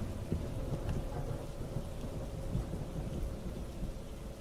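A night rainstorm with thunder: a deep, rolling rumble swells and ebbs beneath a steady hiss of falling rain. The whole scene is fairly faint and continuous.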